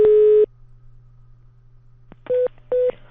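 Telephone line tones during a call: a steady mid-pitched beep opens, then a pause with only a low hum and a click, and two shorter identical beeps follow in quick succession, loud and alone.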